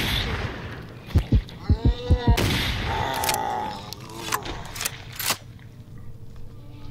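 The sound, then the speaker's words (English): Rapid gunfire from a sawn-off shotgun and a Tesla coil weapon in a video game: a quick run of sharp, punchy shots, followed by scattered bursts and thuds. “Reload. Sawn-off shotgun. Tesla coil. Reload. I love the Tesla coil.”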